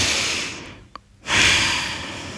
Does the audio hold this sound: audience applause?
no